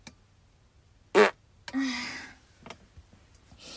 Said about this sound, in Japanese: おなら出そうです。出してきます。